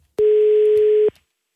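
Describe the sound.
A telephone call tone sounds while an outgoing call is placed: a single steady, buzzing tone lasting about a second, loud and alone.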